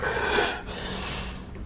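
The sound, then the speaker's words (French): Deep breathing out during labour while pushing: an airy, breathy rush of moderate loudness, stronger at first, then briefly dipping before continuing steadily. “Relâchez-vous bien. Tout doucement. Soufflez. Là. Inspirez.”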